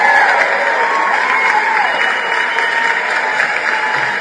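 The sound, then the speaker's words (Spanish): Steady applause and cheering from a crowd: dense, loud clapping with raised voices mixed in, sustained evenly from start to finish without a break. “un aplauso a Yol.”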